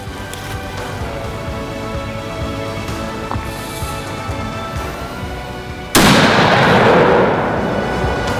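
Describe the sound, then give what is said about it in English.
A single rifle shot fired at a big sambar stag during a deer hunt: a sudden, loud, sharp crack that cuts through a steady low rumble, followed by a loud, sustained roar. “The crosshairs right where I want them, and I squeezed the trigger.”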